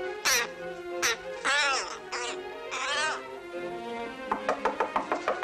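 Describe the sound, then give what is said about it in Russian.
A crow caws as it flies into a room and lands on top of a wardrobe. Several harsh, raspy caws sound apart from each other, followed by a quicker run of short, clipped calls. “В комнату влетает ворона. Садится на шкаф в соседней комнате.”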